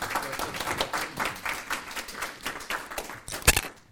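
Applause for a presenter at a meeting, light clapping from a small group with an uneven patter and one louder clap near the end.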